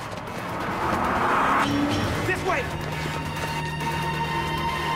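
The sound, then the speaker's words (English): A car speeds along a street toward onlookers, its engine rising to a louder roar and then holding a steady drone with a brief tyre squeal, all under a man's narrating voice. “On another street, Ash and Telly see a car speeding towards them.”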